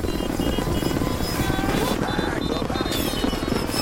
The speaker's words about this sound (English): Zero launches a missile which hits the Hummer, catapulting Logan straight towards the helicopter. His claws slice through the rotors.